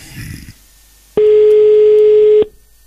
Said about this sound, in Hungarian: Na már is hívjuk a naphallgatóját.